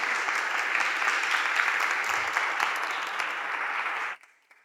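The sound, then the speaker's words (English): An audience gives steady, dense applause as a speaker comes up. The clapping holds at an even level for about four seconds, then cuts off abruptly into near silence. “Why don't we give Janet a hand as she comes and shares what it's looked like for her.”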